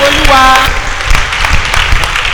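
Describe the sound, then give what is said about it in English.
A church audience claps during a worship service, a burst of sharp, loud hand claps that follows a brief sung or spoken voice at the start and continues unevenly to the end. “Go ahead and clap for him. Do it very well.”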